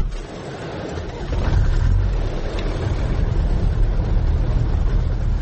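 An old red car driving, its engine a steady mid-pitched drone mixed with road noise that grows slightly louder after the first second and holds to the end, with no voices.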